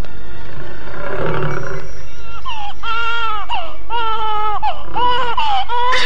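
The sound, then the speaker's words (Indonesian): A tiger gives a low, rough roar, then a baby cries nearby in loud, high, wavering wails, repeated several times in quick succession. “begitu cemas mendengar suara harimau di dekat suara tangis bayi itu”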